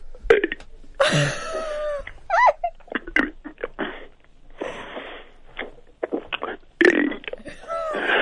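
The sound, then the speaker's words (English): Burping on demand as a man belches out the alphabet in a long run of many short, voiced burps, each a throaty croak shaped into a letter, with uneven pitch and loudness. “And maybe I can burp on demand as well. Go on then. Can you burp the alphabet?”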